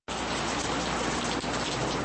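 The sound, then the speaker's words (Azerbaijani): Steady autumn rain falling in Baku, the first autumn rain there in several months. A dense, even hiss of rain on surfaces starts abruptly and continues without pause. “Bugün Bakıya bir neçə aydan bəri ilk payız yağışı yağıb.”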